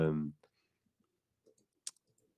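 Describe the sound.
Faint, brief clicks of a computer mouse: a few scattered taps, one sharper than the rest, after a short burst of voice at the start.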